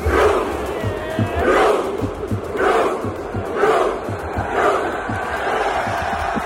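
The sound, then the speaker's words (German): A Norwegian football stadium crowd at a World Cup performs its Viking rowing chant, with thousands of voices shouting in a regular, pulsing rhythm. Each collective shout swells and fades roughly every second. “Wenn Norwegen gewinnt oder ein Tor schießt, rudert nämlich das ganze Stadion. Also die setzen sich dahin, strecken die Arme nach vorne und rudern wie Wikinger. Hör mal.”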